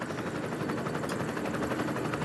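A helicopter filming a race along the beaches makes a steady, loud rotor whir with a fast rhythmic pulse. The blade chop stays even throughout, with no voices.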